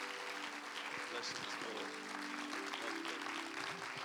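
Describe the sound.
A church audience applauds a guest pastor with dense, steady clapping that holds loud and even for the whole stretch, while a voice talks over it.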